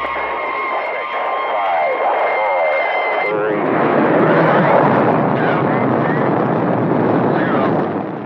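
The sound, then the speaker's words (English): Liftoff of a U.S. Atlas rocket carrying the Friendship 7 capsule in February 1962: a voice speaks over a steady tone, then a loud, broad roaring rush takes over and holds to the end. “That is the liftoff of the U.S. Atlas rocket on February 20, 1962, topped a capsule called the Friendship 7.”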